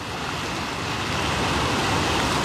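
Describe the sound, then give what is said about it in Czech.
Ocean waves make a dense, continuous rushing wash that swells slightly louder toward the end, with no voices over it. “Držte vlny, ať k nám tak rychle neplují.”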